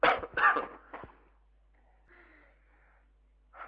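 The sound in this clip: A few short, harsh coughs in quick succession from a person with a persistent cough that hampers speaking, then near silence and one brief soft sound.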